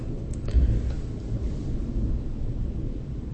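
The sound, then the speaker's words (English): Low thunder rumbles from an approaching storm, a deep, steady, moderately loud roll that hangs on through the whole stretch with no sharp crack and no voices. “Well, that thunder is something else. Man, it's just kind of hanging on there. Kind of rumbles things a little bit.”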